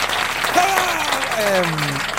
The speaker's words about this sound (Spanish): Añadido aplausos falsos. Sí. Una máquina que tiene, que ojalá cayera un rayo y la fulminara.